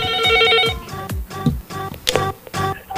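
A telephone rings with an incoming call to a radio show, its ringtone a run of repeated bright chiming tones in a quick, steady pattern.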